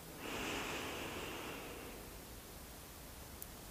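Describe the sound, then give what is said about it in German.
A deep breath during a guided heart meditation: one long, soft, airy rush that lasts under two seconds and then fades into faint steady hiss. “Nimm einen tiefen Atemzug, atme tief ein”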